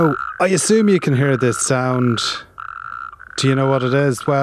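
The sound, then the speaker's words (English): Hundreds of natterjack toads calling in County Kerry, a continuous buzzing trill that runs underneath a voice talking throughout. “it's the sound of the Natterjack toad, and hundreds of them, yes, hundreds of them, are being released in County Kerry this morning.”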